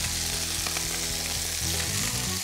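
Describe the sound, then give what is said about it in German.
Food slowly frying in hot fat over moderate heat, just turned in the pan, gives a steady, even sizzle and crackle that stays constant throughout, with no talking. “gerade richtig Hitze. Die werden wie ganz langsam frittiert.”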